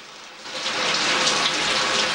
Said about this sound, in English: Her eyes closed, Marianne grins and holds her face under the water.